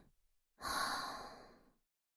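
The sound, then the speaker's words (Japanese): One slow breath out, exhaled on instruction during a breathing exercise. The airy exhale starts suddenly, lasts just over a second and fades away alone, with no voices. “吐いて。もう一回。 吸って。吐いて。”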